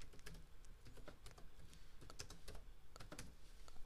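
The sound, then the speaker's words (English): Quick clicking of computer keyboard keys as a name is typed into a stats program: many soft taps in an uneven, busy rhythm over a low steady background, quiet and without speech. “Let me type in Gordon Hayward's name here.”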